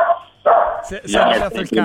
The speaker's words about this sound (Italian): c'è il cane, si è arrabbiato, senti.